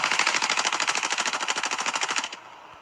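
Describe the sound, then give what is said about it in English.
Rapid automatic gunfire from an assault rifle shooting at cans: a fast, regular stream of sharp, loud shots that runs for about two seconds, then stops abruptly. “How do you miss so many of the cans with an assault rifle when you were right in front of them?”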